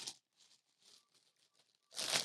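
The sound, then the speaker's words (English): Package being ripped open by hand: a few faint crinkling rustles, then one louder, longer tearing rip at the end. “I gotta actually rip this open.”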